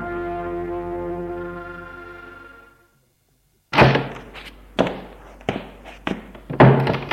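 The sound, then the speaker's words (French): A door opens with a series of sharp wooden thunks and knocks after a soft, sustained tonal passage fades into a brief silence. “Il attend ainsi une heure, deux heures, puis la porte s'ouvre.”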